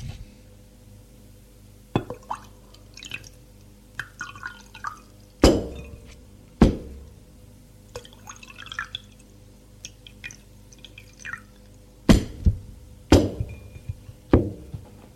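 Glass clinks and knocks as a bottle and two glasses are set down on a table and a drink is poured. Several sharp, bright taps sound at irregular intervals, with faint dripping between them and no voices.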